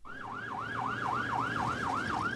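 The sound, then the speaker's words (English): Sirens on a convoy of American Humvees blare in a fast, steady yelp, the pitch swinging up and down many times in quick, even cycles over a low vehicle rumble. “The convoy of American Humvees barrels along at breakneck speed, sirens blaring out warnings to Afghan drivers, bicyclists, and pedestrians to get out of the way.”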